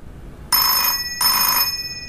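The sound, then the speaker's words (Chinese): A telephone rings twice in an office, two bright electronic bursts of about half a second each, separated by a short pause, with no talk. “接电话合适吗？”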